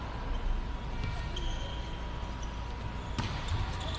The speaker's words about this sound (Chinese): 江苏队来发球，